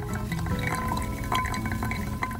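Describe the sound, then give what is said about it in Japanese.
Hot water pours onto coffee grounds during pour-over brewing, the third pour of about 100 ml. It makes a steady, soft trickling hiss with faint drips throughout. “3投目のお湯も 100ml 入れていきます”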